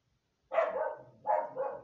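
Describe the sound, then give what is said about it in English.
A dog barks in two fairly loud, mid-pitched bursts separated by a short pause, with near silence before the first one and no talking. “Sorry about the dog”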